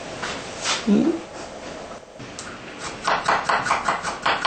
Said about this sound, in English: And then slice very, very thin. As thin as you can. There, we can make it. Look how thin it is.